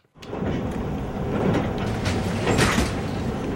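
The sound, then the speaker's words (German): Baggage carousel at Frankfurt airport carrying suitcases slowly past, heard as a steady, moderately loud mechanical rumble and clatter that runs unbroken through the whole clip, with no voices. “Ein Koffer nach dem anderen fährt langsam auf dem Gepäckband vorbei.”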